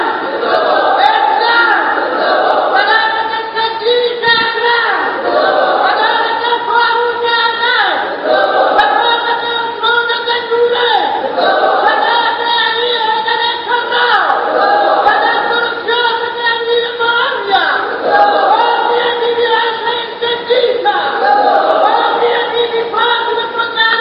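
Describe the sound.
A large crowd at a religious sermon gathering chants the takbir, Allahu Akbar, in unison. The loud, rhythmic chanted phrases repeat again and again over about 24 seconds.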